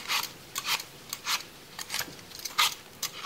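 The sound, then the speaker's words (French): Knife cutting a pineapple into round slices, heard as a series of short, crisp rasping strokes at an uneven pace with quiet gaps between them and no talk. “Puis couper l'ananas en rondelles.”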